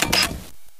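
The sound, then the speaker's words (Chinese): A camera shutter clicks as a photo of a pretty house is taken: one short, crisp mechanical burst, then near silence with a faint tick. “来，我拍张照片呢，”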